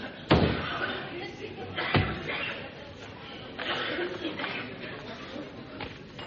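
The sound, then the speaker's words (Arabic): A door bangs shut as someone exits during a stage play, with two sharp thuds close together, the first one louder, followed by a low, muffled murmur. “خرج فتحي من الباب على الشمال وفضل الاستاذ سليمان لوحده في الاوضه.”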